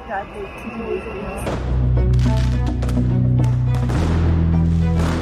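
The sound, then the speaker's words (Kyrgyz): Fireworks fired by protesters toward police go off as many sharp bangs over a dense, continuous roar, after a short opening stretch where a voice speaks. “Митингчилер полицияга жооп кайтарып, алар тарапка фейерверк атып жатышты.”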